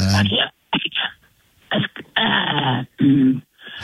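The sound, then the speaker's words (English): Throat clearing as someone tries to bring up phlegm: a series of rough, hoarse, voiced bursts separated by short pauses. “Maybe you can clear some of that phlegm out of there.”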